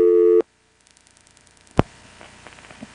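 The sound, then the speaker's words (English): Telephone switch noises on a line in Carolina telephone territory before an NX1 cut-through: a steady tone stops abruptly, then faint rapid ticking, one sharp loud click and a few softer clicks follow. “I know that sound. That's an NX1 type sound. Yeah, that's an NX1 cut-through sound, but then these noises it makes before it cuts through...”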